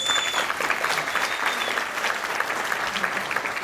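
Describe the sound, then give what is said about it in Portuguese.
Applause for a guest on a TV program: a dense, steady crowd clapping that stays loud and even for the whole few seconds. “Neto, pô, palmas pro Neto”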